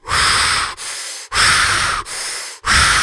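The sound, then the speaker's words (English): Deep, forceful breaths in a breathwork exercise demonstration: five rapid, airy rushes of breath come in a steady rhythm, alternating louder and softer strokes. They are loud and clear, with no talk. “But just by you taking 30 deep breaths and then holding out for 10 seconds, do that 3 times.”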